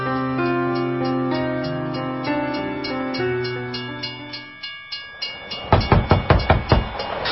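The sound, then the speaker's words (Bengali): A train approaches, first with long, steady horn tones. These give way to a rhythmic clickety-clack of wheels that grows louder and heavier toward the end. “কোথা থেকে জানো একটা train আসছে, শুনতে পাচ্ছেন?”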